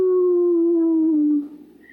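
A wolf howl rises from a pack circling in the dark: a single long, smooth mid-pitched tone with strong harmonics that slowly drifts lower for about a second and a half before breaking off.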